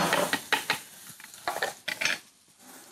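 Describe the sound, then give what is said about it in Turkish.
Onion and tomato paste being stirred and fried in a pan, with a few scraping strokes over a soft sizzle. Bursts of stirring come in an uneven rhythm, with no voices. “Soğan ve salçayı kavuracağım”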